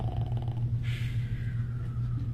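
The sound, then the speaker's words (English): A man fast asleep gives a single short, noisy snort, like a horse, over a low steady hum. “Fast asleep and snorting like a horse.”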